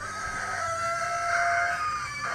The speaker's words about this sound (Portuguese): Nossa, os galos estão tudo brisados. Um grito horrível assim. O que foi? Os galos daqui estão tudo brisados. Parece um porco.